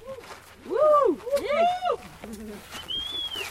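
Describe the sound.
Birds calling, with several loud, low, arching cooing phrases in quick succession, then softer, lower notes and a thin, high whistle near the end.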